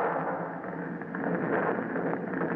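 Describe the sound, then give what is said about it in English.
Oil and gasoline slick burning on water after being lit: a steady, roaring rush of flames with a crackling texture that swells slightly partway through. “Okay, light her up. Light up that oil slick.”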